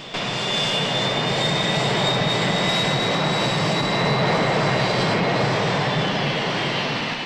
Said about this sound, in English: the plane starts to move again